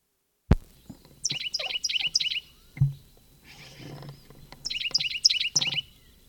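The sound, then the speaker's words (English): Bird chirping inside a barn in two bursts of rapid, high-pitched tweets separated by a pause, with a sharp knock near the start and a dull thump between the bursts. “Bird flew into the barn.”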